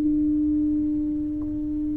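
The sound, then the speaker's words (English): A foghorn-like horn blast holds one steady, low, buzzy tone at constant pitch and even loudness for about two seconds, with no other sounds. “When the foghorn sounds, it's in a time when you're limited visibility,”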